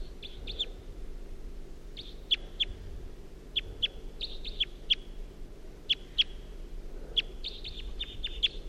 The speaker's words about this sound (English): Wild bird's flying away now.